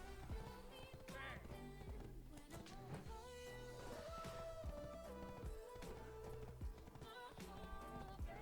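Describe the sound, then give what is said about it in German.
Horse hooves clip-clopping as a rider travels through a town in an online role-playing video game, a steady, rhythmic run of quiet hoofbeats that continues throughout. “Dann reiten wir jetzt mal über Velia.”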